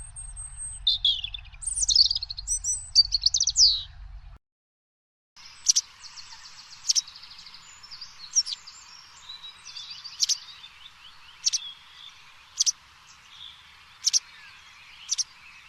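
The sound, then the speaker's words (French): European robin singing: a burst of rapid, high, warbling phrases, a short silence, then a run of sharp, high notes repeated roughly once a second over faint twittering. “Rouge-gorge.”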